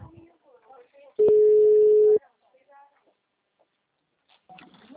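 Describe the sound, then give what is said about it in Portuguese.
A telephone tone sounds after a dropped call: one steady, loud, mid-pitched beep lasting about a second, with faint talk before and after it. “A ligação caiu”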